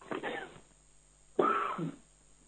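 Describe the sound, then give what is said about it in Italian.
Two coughs, one short burst and then a louder, harsher one after a brief pause, with faint background hum between them. “Scusate che adesso devo, mi viene la tosse.”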